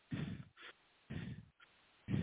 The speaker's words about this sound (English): I'm just breathing like in a noisy way for you to hear the pattern